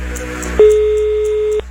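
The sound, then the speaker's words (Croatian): A mobile phone ringing: one steady electronic tone that starts abruptly and holds for about a second before stopping, over a low hum with faint periodic ticks. “Nikad ne znaš kad će ti mobitel zazvoniti. Stvarno je vrijeme da se neko javi.”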